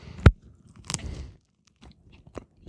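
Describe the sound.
Someone bites and chews cheese with its rind on, a lactic-set cheese with a texture between fresh and hard cheese: one sharp crunchy bite, then a few softer, quieter chewing sounds.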